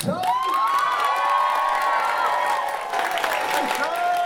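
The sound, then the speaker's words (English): Audience applause and cheering as a speaker is welcomed onto a stage: a dense, steady roar of clapping mixed with whoops and shouts that runs without a break from start to finish. “So please, can we give a warm, warm round of applause”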